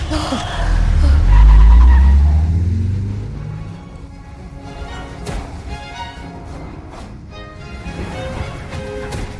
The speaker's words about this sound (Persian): ماشین رو روشن کن.